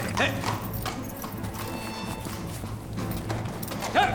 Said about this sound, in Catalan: S'allunya galopant carrer amunt.